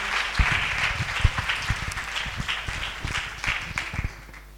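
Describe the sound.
An audience claps to acclaim God during a church service. Many hands beat in a brisk, uneven patter that eases slightly toward the end.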